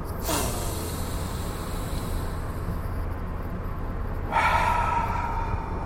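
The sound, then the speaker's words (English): A deep breath taken in a car during a breathing exercise: a sharp inhale at the start, a held pause, then a release of air near the end, all over steady road and engine rumble. “All right, three deep breaths. Here we go.”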